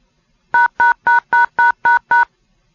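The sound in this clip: DTMF touch-tones dial a phone number through a radio autopatch: seven evenly spaced, equally loud dual-tone beeps in a steady rhythm, heard alone with no talking.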